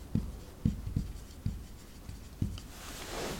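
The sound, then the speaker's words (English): Writing during a talk on the Lord's Prayer: soft, faint scratching with several light taps, with no voice over it. “So let's write that in. The Father's forgiveness.”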